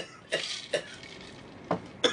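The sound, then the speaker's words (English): Throat clearing comes as four short, faint rasping bursts, two close together near the start and two more near the end, separated by quiet. “Let me clear my throat.”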